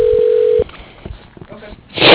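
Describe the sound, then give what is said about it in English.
A telephone call being transferred to voicemail: a steady line tone holds for about half a second and cuts off, followed by a few faint clicks and a swell of hissy line noise at the end. “I'll just transfer you to his voicemail. Hang on a sec, okay?”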